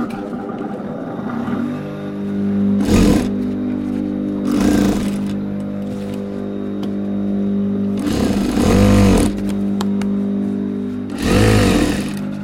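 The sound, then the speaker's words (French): Sewing machine stitching a tie folded lengthwise, running in several short bursts of rapid, buzzing mechanical chatter separated by quieter pauses over a low motor hum. “Donc là, je plie ma cravate en deux sur toute la longueur. Je me fais une piqûre longitudinale.”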